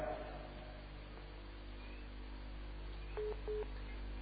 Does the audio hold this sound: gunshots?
no